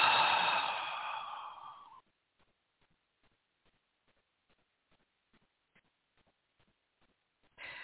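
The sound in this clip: A deep exhale during a guided breathing exercise: a long, breathy outward breath lasting about two seconds, fading gradually and followed by near silence with only faint scattered clicks.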